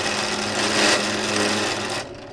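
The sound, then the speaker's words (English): A jewellery grinder or buffing machine in a ring-making workshop gives a steady, high whirring drone that holds level and then cuts off near the end. “Got my grinders, my buffers.”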